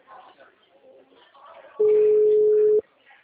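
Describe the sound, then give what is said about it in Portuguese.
Telephone tone after a dropped call: one steady, loud, mid-pitched beep lasting about a second, with faint muffled voices before and after it. “Caiu a ligação, é isso?”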